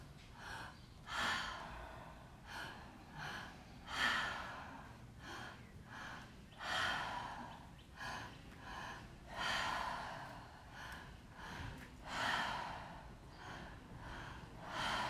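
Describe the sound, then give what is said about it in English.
Breathing during a guided exercise, with two inhales followed by an exhale through the mouth. The faint, airy breaths repeat many times in a steady rhythm, each swelling and fading, with no talk. “inhale from the base of our spine, inhale from our chest, and then exhale from our mouth. So it'll go inhale, inhale, exhale.”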